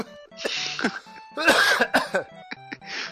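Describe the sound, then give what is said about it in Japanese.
Choking coughs from a person: a few harsh, uneven bursts mixed with voiced sputtering, with a loud, dense cluster in the middle and a last short cough near the end. “むせるっていうね”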